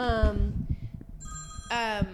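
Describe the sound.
A mobile phone ringtone goes off in two bright, tonal bursts, one at the start and one near the end, with higher steady tones in the gap between them and low thumps underneath.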